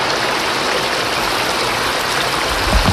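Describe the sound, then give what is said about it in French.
A stream of water flows in open countryside, producing a loud, unbroken rushing and gurgling wash that stays even from start to finish. “Regardez, il y a un cours d'eau là, monsieur. C'est gratuit, la nature.”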